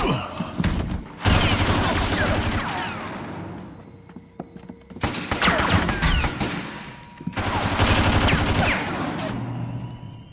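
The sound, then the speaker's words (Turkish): Machine gun fire rattles out in three long, dense bursts of rapid, loud shots, separated by brief quieter gaps. “Duyduğum makineli tüfek sesi mi”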